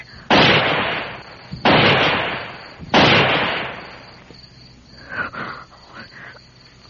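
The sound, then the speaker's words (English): Three gunshots fired into the air one after another, evenly spaced about a second and a half apart. Each is a sharp, loud blast with a long decaying tail, followed by quieter background sound. A person speaks briefly. “fire 3 shots in the air, one after the other”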